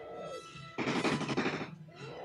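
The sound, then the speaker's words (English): Rapid automatic gunfire comes from a film action scene packed with squib effects. A dense, faint burst of quick shots lasts about a second, with quieter stretches on either side. “There's so many squibs right now. They just fucking all kinds They've of squibs. They've already unloaded 200 rounds in this thing.”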